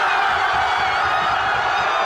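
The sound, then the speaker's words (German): A crowd in Madrid, Spain, cheers in celebration after the World Cup final whistle: a loud, continuous roar of many voices that holds steady without a break. “Dort ist natürlich nach dem Schlusspfiff der große Jubel ausgebrochen.”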